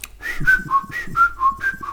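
A person whistles a bright, lively melody in imitation of a famous whistled pop hit, with clear pure notes that alternate between higher and lower pitches in a steady bouncing rhythm.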